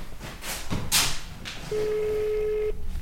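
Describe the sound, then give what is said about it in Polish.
A telephone call being dialled: a few soft taps and thuds, then a single steady electronic tone held for about a second before it cuts off. “Spróbujemy zadzwonić do córki.”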